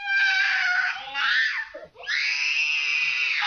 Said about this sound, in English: She was 3 when she had that tantrum.